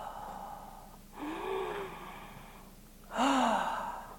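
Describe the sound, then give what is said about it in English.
Deep breathing in through the nose and out through the mouth during a calming exercise: two long, soft breaths with an airy hiss, separated by a quiet pause. “I want you to take some deep breaths, okay? With me now, in through the nose, out through the mouth.”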